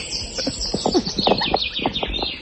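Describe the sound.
Birds singing in an earlier recording, with faint, rapid high chirps and twittering notes mixed with some lower clicking sounds. The whole stretch stays fairly quiet.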